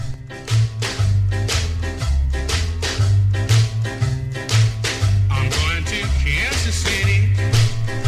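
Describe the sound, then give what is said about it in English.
A popular three-chord song plays as a band track with steady drum hits and a bouncing bass line. The bass steps through the tonic, fourth and fifth chords in a repeating dunka-dunka rhythm. “Let's take a three-chord dunka-dunka song that was amazingly popular, and I will demonstrate what I mean.”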